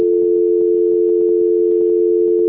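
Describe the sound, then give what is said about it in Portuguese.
A steady, single-pitched telephone tone sounds on a call, loud and unbroken from start to finish. “A ligação ficou tocando uma musiquinha.”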